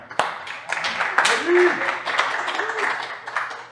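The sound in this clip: Applause welcomes a speaker at a church gathering: steady, dense clapping from a crowd, with voices calling out and whooping over it.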